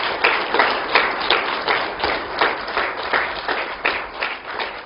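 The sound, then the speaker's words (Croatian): An audience claps for a table tennis player at a sports awards ceremony. The applause is steady and fairly loud, with dense, irregular hand claps that swell in small waves for about five seconds. “Još jednom aplauz za stonotenisera Filipa Radovića.”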